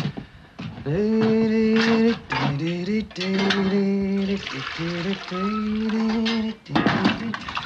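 Water pours while dishes are washed up, with dishes and cutlery clattering under a steady wash of running water as a man sings loudly over it throughout.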